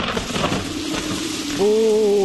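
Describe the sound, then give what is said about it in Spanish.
Downpour of rain as a sound effect: a steady, dense hiss of falling rain fills the first stretch, then a sustained, steady buzzing tone cuts in over it until the end. “Chaparrón. Pronóstico de lluvia.”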